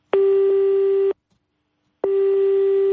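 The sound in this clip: Ringback tone of an unanswered telephone call to a press service line: a loud, steady mid-pitched electronic tone sounding in two long beeps of about a second each, separated by a second of silence, with no voices.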